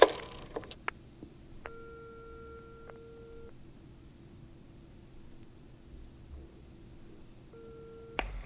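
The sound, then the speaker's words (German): Telephone ringback tone heard in the line after a call is placed: a few long, steady beeps separated by a long gap. The beeps are fairly faint over a constant hiss on the line, and no one speaks. “Zurück in ihrer Zentrale lauschte Justus dem Tuten in der Leitung.”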